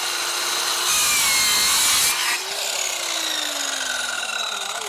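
A hand saw rasps through a wooden board on a facade, then meets a nail in the last centimetre of the cut. Steady, noisy sawing strokes give way to a sustained ringing whine that slowly slides lower in pitch.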